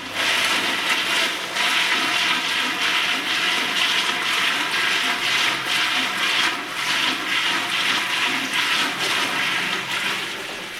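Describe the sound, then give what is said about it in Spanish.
A toilet flush produces a steady, loud rush of water that holds for about ten seconds before tapering off at the end. “E non podía faltar unha grabación dun váter.”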